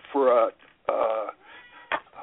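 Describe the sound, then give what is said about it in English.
A cat meows in a few short, tonal cries with clear harmonics. The first two are longer and more prominent, and a brief, fainter call follows, all at moderate loudness. “Sounds like my cat's going to join us.”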